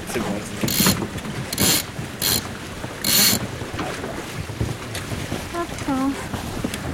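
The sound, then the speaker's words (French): Foresail hoisted on a sailboat on a calm sea: four rasping bursts of line running through pulleys and a winch ratchet, over steady wind noise, with a short squeaky whine near the end. “On envoie la voile avant.”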